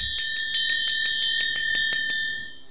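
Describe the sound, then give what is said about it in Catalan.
A bell rings in a rapid run of many evenly spaced strikes, bright and high, each sustaining into the next until the ringing stops. “Primera campana.”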